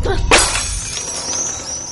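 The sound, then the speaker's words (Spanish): A glass bottle is thrown against a wall and shatters in one sudden, loud, bright crash, followed by a trailing hiss of scattering shards and faint ringing that fades over the rest of the moment. “Coge una botella de vidrio de encima de la mesa y la lanza contra la pared.”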